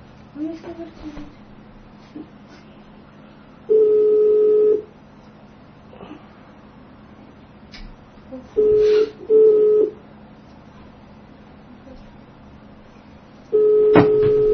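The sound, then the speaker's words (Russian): Ringback tone of an outgoing telephone call: a steady mid-pitched tone sounds in short bursts of about a second, a few of them separated by long silent gaps over faint background hiss. “Да, давай ему позвоним горячему южанину.”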